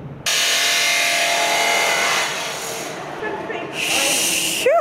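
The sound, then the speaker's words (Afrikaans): An abrasive cut-off machine cuts steel to length in a school workshop. A loud, sustained hissing grind eases off, then a second shorter cutting burst follows. “Hier is die afsnymasjien wat ons die staal verskillende lengtes sny.”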